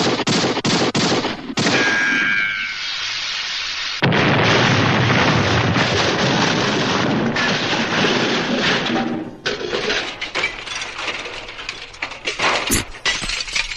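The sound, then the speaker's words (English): Exploding barrels from the Hanna-Barbera sound effects library: loud bursts and crashing breakage swell into a sustained, roaring rumble. A scatter of crackling pops follows, then one sharp burst near the end, with no voices. “I'm guessing based on that, I do love the Ricochet Looney Tunes sound, by the way, but that was Exploding Barrels, exploding which is our number five.”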